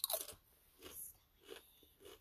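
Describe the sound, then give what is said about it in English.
Spicy jalapeno Cheetos-style snack chips crunch as they are eaten: one sharp, loud bite, then three softer, spaced chewing crunches, heard alone. “It's like Cheetos, like the jalapeno Cheetos. Like spicy jalapeno Cheetos is what it tastes like.”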